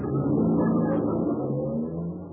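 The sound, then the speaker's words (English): A bus pulling away, heard as a loud, steady low engine rumble that runs continuously and eases off slightly toward the end, with no voices over it. “Uh-oh, there's a bus. Hey, wait for me!”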